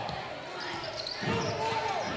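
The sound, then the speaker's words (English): Basketball dribbled on a court during a game, a few dull bounces under steady crowd noise and talking. “Almost a three-man weave, but a lot of dribbling in between.”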